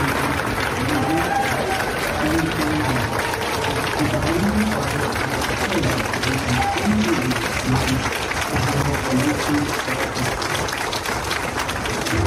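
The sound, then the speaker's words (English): Sustained crowd applause at an award ceremony. The clapping forms a dense, unbroken roar at an even level for the whole stretch, with indistinct talking faintly beneath it. “One is simple sounds of applause.”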